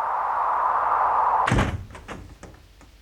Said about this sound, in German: Schnell die Tür zu. Schnell die Tür zu.